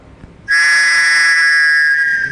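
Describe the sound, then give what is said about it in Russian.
A flat basketball referee's whistle is blown in one long, loud, shrill blast. The tone starts abruptly after a brief quiet moment and holds steady for about two seconds. “Поэтому вот, в моем детстве они назывались баскетбольные. В баскетболе судья такими свистел всегда. Именно плоский.”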